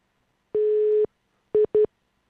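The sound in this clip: A telephone line tone sounds after the caller has hung up: one steady, mid-pitched tone about half a second long, then, after a pause, two short beeps in quick succession, heard alone against silence.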